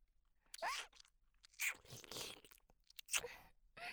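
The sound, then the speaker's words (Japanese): Soft ASMR ear-eating mouth sounds: a few faint, wet, crunchy smacks and nibbles come in separate bursts with quiet gaps between them. “じゃあお耳食べてあげるね。”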